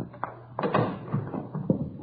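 A front door being opened, heard as a few soft thuds and clunks in quick succession, fairly quiet and without talk.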